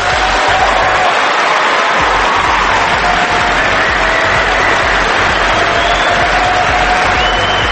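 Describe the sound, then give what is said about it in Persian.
An audience at a meeting with Ahmadinejad claps in loud, dense, continuous applause that stays steady throughout. “اونا هم که اون پای نشستن دست میزنن دیگه، فرق نمیکنه.”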